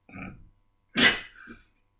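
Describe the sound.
A person snorts: a short nasal rasp, then a louder, harsher burst and a softer nasal tail, all with no speech.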